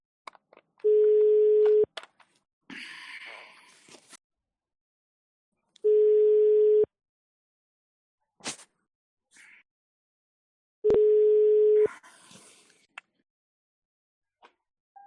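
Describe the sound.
Telephone ringing tone while calling someone: three steady, mid-pitched one-second tones repeat at even intervals of about five seconds, with a few brief clicks and rustling noises in the gaps and no talking.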